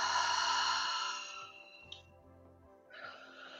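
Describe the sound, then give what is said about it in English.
A slow breath during a yoga breathing exercise: an airy breath sound fades out over the first second and a half, soft tonal music plays underneath, and another breath begins near the end. “Slowly inhale from your tailbone into the crown of your head, and then exhale.”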